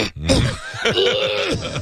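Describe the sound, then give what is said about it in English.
A person's voice imitates a gurgling cough with a short burst of rough, croaking, bubbling pulses that rise and fall in quick succession, heard alone. “Yeah, like a gurgling cough.”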